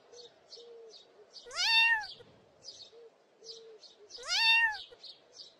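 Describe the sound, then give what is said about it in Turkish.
A kitten stuck on a tree branch meows twice, each a clear, rising-then-falling plaintive cry, while soft, repeated bird chirps and short low calls continue between them. “yavru bir kedinin dalın üzerinde miyavladığını gördüler”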